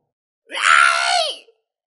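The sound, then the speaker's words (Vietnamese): A long, loud scream lasting about a second, strained and tonal. Its pitch sags and drops away at the end, and it rings out alone against silence. “Một tiếng thét dài, thánh hoàng tử tới.”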